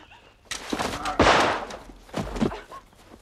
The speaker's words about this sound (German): dieser eigenartige Herr Gontham war angetrunken und schoss wahllos in der Gegend herum.